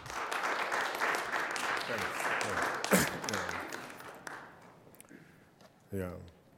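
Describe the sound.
Audience applause welcoming a professor before a lecture on the ICC and Africa, steady dense clapping with voices mixed in, fading after about four seconds as a single voice takes over.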